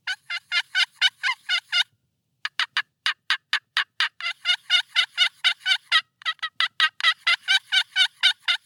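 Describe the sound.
Excited yelps of a turkey hen, imitated with a call during a mountain turkey hunt: a long run of sharp, raspy, evenly spaced notes, with one brief break near the start before it resumes and continues loudly.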